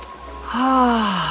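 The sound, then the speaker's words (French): A deep breath drawn in through the nose and let out through the mouth during a guided relaxation exercise. A soft, airy intake gives way to a longer voiced, sighing exhale. “Je veux que vous inspiriez profondément par le nez et que vous expiriez par la bouche, comme ceci.”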